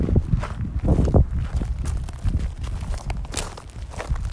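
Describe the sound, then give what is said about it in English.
Footsteps of people walking outdoors near a labyrinth, many irregular soft thuds and scuffs running through the whole stretch over a constant background noise. “we're walking over by the region where the labyrinth is”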